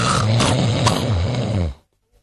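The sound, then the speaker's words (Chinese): A storyteller imitates loud snoring for a man lying on a heated brick bed: one long, rough, rasping snore lasting nearly two seconds, then an abrupt cut to silence. “躺在炕上我先打我的呼噜”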